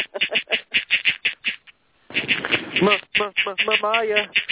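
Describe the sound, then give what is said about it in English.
A mobile phone's text message alert sounds as a loud, rapid run of quack-like pulses. It breaks off briefly and is followed by people talking. “Whoever's texting on their phone might want to mute it. Yeah, that's kind of a little loud.”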